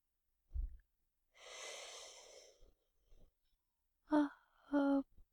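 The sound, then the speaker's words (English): Slow breathing in and out as part of a guided breathing exercise: a short puff, then one long, soft airy breath, followed by two brief voiced sounds. “So when I breathe in, you go up. When I breathe out, you go down.”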